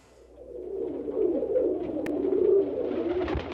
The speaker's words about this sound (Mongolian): Тагтаага арай царай гаргаж авчирлаа.